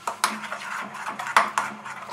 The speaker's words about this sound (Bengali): এবারে এর মধ্যে আমি স্বাদ অনুসারে নুন অ্যাড করে দিলাম, নুনটা অ্যাড করে ভালো করে মিশিয়ে নেব।